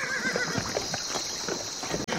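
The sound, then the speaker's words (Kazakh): A chestnut stallion neighs and snorts as it comes to the water. A faint whinny at the start fades into rough, breathy snorting under a steady hiss, and the whole clip stays quiet. “Сол ақ екен, күрең айғыр оқыранып келіп, суға қойып өтті.”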